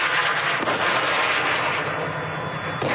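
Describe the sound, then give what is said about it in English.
Rocket fire from a military video of fighting in the Gaza Strip: a loud, sustained roaring blast with sharp cracks near the start and the end. “The videos include rocket fire and armored bulldozers operating in the Gaza Strip.”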